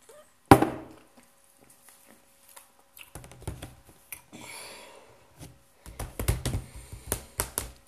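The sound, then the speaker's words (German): Fingertips tapping blind on a tablet screen: one sharp knock, then after a quiet gap irregular bursts of quick, light taps that grow denser toward the end. “So, ich tippe jetzt für eine Minute blind einfach auf das Tablet.”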